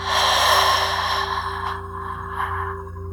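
A slow, airy exhalation during a guided breathing exercise gradually fades away over a steady, sustained musical drone.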